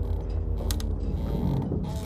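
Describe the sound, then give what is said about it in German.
Crooked wooden masts creak in the wind aboard a frost-covered old ship with iced ropes. The sound is a dense, continuous creaking and grinding at steady loudness, with a few sharper clicks. “Schiefe Masten knarzen im Wind.”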